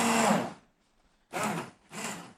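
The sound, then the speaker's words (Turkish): A powerful blender whirs as it purées food, likely oven-roasted garlic, in three loud bursts. The first burst is the longest, then short pauses of silence separate the next two. No voices are heard. “Burada kuvvetli bir blenderla saniyeler içerisinde bunu tamamlıyoruz.”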